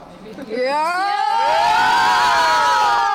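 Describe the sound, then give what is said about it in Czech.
Girls cheering loudly at a sports tournament: shrill, high-pitched screams swell in after about half a second and hold loud and sustained to the end, several voices blending into a wavering, rising chorus. “holky, můžete nám teď ukázat, jak hlasitě dokážete fandit?”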